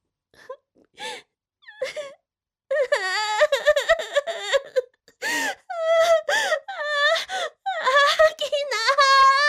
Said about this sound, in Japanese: いきなり泣かないでよ